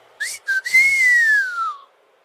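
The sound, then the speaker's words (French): A young man gives an admiring whistle: two short clear notes, then one long sweeping note that arcs gently and slowly falls away, bright and alone. “Le jeune homme émit un sifflement admiratif.”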